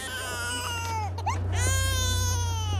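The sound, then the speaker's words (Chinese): A child cries in a loud, high, wavering wail that breaks off briefly midway before the sobbing resumes, over a steady low hum. “不要哭了”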